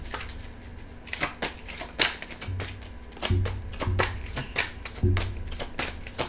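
Tarot cards being shuffled give many quick, soft riffling bursts and taps in an uneven rhythm, fairly faint and without talk.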